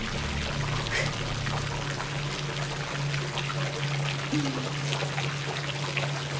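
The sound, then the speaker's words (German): Continuous splashing of a fountain, a loud, steady rush of falling water without pauses, with a low, constant hum running underneath. “Ein Springbrunnen.”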